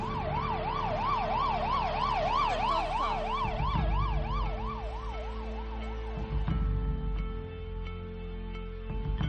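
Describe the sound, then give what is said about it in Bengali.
An ambulance siren wails loudly, its pitch swinging rapidly up and down over a steady low rumble of road traffic; the oscillating wail dominates the first half, then gives way to the ongoing traffic drone. “তাড়াতাড়ি আমরা তাকে ambulance করে হাসপাতালে নিয়ে গেলাম”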